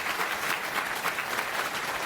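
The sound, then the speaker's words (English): Applause from a conference audience welcoming a talk, a dense, steady patter of many hands clapping at even loudness throughout, with no voices standing out. “Round of applause for Josh.”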